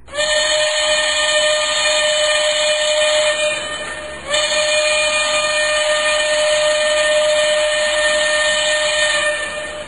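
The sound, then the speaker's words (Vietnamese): A steam train's whistle blows in one long, loud, steady shrill tone over a hiss, with a brief break partway through before it sounds again. “Cách một lát, có tiếng súp lê thổi ẩn ép.”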